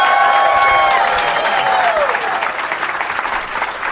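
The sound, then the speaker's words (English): A live studio audience applauds and cheers to welcome a guest onto a show: loud, dense clapping with a sustained shouted voice over it in the first half, then the applause thins into scattered claps. “So everybody, please give a big warm welcome from the Nerdist Podcast.”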